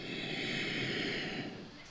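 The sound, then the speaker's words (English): A single soft inhale through the nose during a guided breathing exercise: a steady, airy hiss lasting about one and a half seconds that then tapers off. “Inhale and exhale.”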